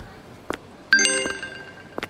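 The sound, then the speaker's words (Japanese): A phone message notification tone: a short, bright electronic chime with ringing harmonics that starts abruptly and decays over about half a second, with a few soft taps before and after. “あれ、メッセージが来た。”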